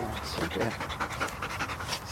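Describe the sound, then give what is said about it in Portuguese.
Rapid panting of a female Belgian Malinois search-and-rescue dog at a police canine unit. The breathy huffs are steady and continuous, with people talking over them. “Cobra Kai é uma cadela belga malinois”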